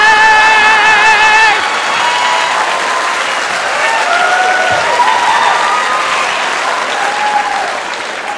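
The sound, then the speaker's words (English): A crowd of women clapping and cheering in a town square, with steady, dense applause throughout and excited shouts and whoops rising above it, plus a few voices calling out. “all the ladies are gathered in the town square and they're all clapping, they're all excited.”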